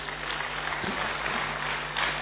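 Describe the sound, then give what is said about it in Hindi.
Audience applause at a live performance, a steady, dense wash of clapping that holds at an even level throughout with no voices over it. “मुझे अभी तक समझ में नहीं आया ताली किसके लिए बजा रहे हैं। एक बार तो अपने लिए भी बजा लीजिए, ठीक है?”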